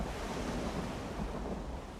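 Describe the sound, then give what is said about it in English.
Steady, dense roar of a relentless thunderstorm on a beach: wind and surf-like noise hold loud and constant throughout, with no separate events standing out. “The plane sits on the beach, resting on one side. The thunderstorm is relentless.”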